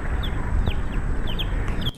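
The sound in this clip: Chicks chirp and cluck in a played video of chicks living alongside a pit bull, giving several short, high peeps over a steady, noisy background.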